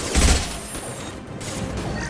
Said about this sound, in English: Oh, they're shooting a lot of bullets at us.